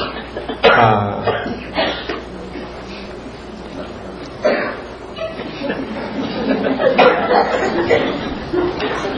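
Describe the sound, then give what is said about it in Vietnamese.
Scattered coughs from audience members during a Buddhist teaching on consciousness: a few sharp coughing bursts break out over the whole span, set against a low murmur of the crowd. “Sao giờ tới đây nhiều người ho quá vậy?”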